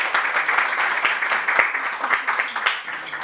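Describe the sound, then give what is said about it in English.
Applause from an audience at a community gathering: a dense, steady patter of many hands clapping throughout, fairly loud and unbroken. “So everybody clap your hands and then.”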